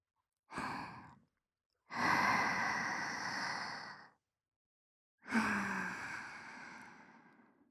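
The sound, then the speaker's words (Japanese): A person takes deep breaths in and out as a calming exercise: one short breath, then two long, full breaths separated by pauses, breathy and soft, with no talking. “よし。そしたら一旦、深呼吸しよう、”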